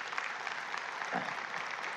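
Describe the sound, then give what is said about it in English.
A church audience applauds, a faint, steady patter of many hands clapping together without pause. “Yeah, you could clap for that.”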